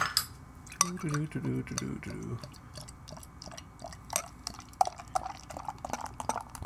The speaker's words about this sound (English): It comes in... looks like a 16.9 fluid ounces. I'll crack it.